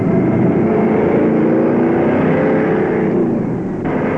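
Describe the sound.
Engine of a Volkswagen Beetle accelerating, a loud steady droning roar that holds at a strong level with a slight dip just before the end.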